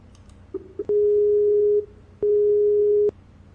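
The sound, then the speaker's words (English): Telephone tone heard while redialing a Skype call: a couple of brief blips, then two long, steady mid-pitched tones separated by a short gap, with no talk. “Let me dial you right back.”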